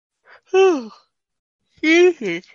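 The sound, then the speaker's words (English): A person yawning aloud during an energy-clearing session: two drawn-out, voiced yawns with a gliding, falling pitch, the second breaking into a shorter tail, separated by a pause of about a second. “Whenever I yawn like that, guys, there's a big release of energy.”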